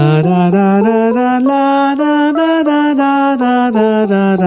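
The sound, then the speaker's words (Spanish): A Dorian minor scale, as used in Celtic folk music, played as a melody on a bright sustained tone. Evenly spaced notes step upward to a top note and then walk back down, loud and unaccompanied. “Pero ellos utilizan una variación que se llama la escala menor dórica, que suena así.”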